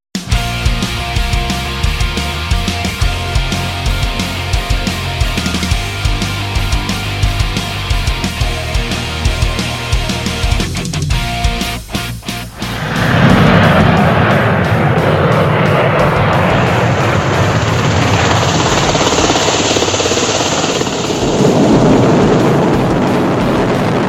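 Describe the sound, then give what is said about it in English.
A fixed-wing aircraft takes off. A steady humming tone gives way to a loud, sustained, broad engine roar that holds at full strength until the end. “Takeoff.”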